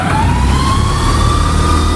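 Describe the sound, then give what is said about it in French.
An air compressor starts up in the cab of a 1974 electric locomotive: a loud, steady mechanical drone with low throbbing pulses, over which a thin whine climbs gradually in pitch as the motor spins up. “Et là, je mets en route le compresseur.”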